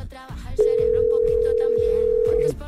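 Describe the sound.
A telephone ringing tone while a call is being placed: one steady, unbroken electronic tone lasting about two seconds, heard over rhythmic background music after a brief voice.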